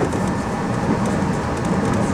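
Train arriving at Line 1 of Hashimoto station, a steady, loud rumble and rattle of rolling carriages that holds an even level throughout, with no voices.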